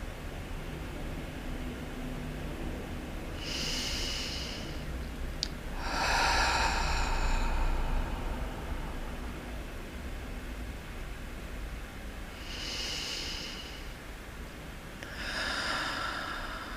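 Slow, deep breaths in and out during a short relaxation pause, with the eyes closed and shoulders loose: four soft, airy breath sounds spaced several seconds apart over a faint, steady hiss, with no talking.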